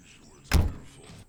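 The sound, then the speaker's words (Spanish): A car engine starts with one sudden loud burst that eases into a quieter running sound, lasting under a second before it cuts off. “se monta en un coche, arranca.”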